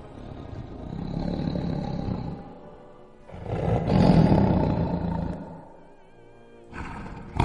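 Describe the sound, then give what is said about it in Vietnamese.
An angry roar from a huge dragon-elephant creature standing on a riverbank: deep, growling and rumbling, in three long bursts, the last one short and cut off abruptly. “Long tượng đứng trên bờ nhìn theo, gầm thét lên tức giận.”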